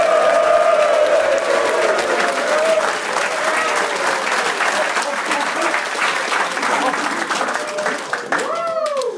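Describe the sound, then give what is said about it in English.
A live studio audience, together with a college football team at the University of Tulsa, applauds with dense, steady clapping that lasts about nine seconds, with voices mixed into the noise. “Let's hear it. It's a live studio audience.”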